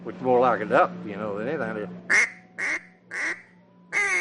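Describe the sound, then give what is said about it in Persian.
An old-style duck call whistle imitates a duck with four short, raspy quacks spaced apart in a loose rhythm, each a bright, nasal burst. “اغلب مردم نمیدونن که صدای تیپچه اردک‌های قدیمی با مال امروز تفاوت داره، یعنی صداش اینجوریه.”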